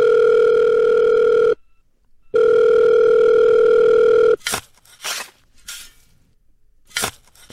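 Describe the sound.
A telephone dial tone plays in two long, steady, loud stretches separated by a short silence, followed by a few short, sharp bursts of noise.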